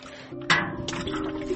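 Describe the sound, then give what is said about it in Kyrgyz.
Water pours from a tap for washing, a steady rushing splash that starts after a brief quiet moment and runs on at an even, moderate level. “Эми биякта кран устурса да минтип суу куюп минтип жууп атабыз.”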